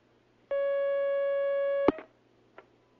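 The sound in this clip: A telephone line tone as a caller connects: one steady, loud electronic tone lasting over a second, cut off by a sharp click, then a fainter click after a short pause.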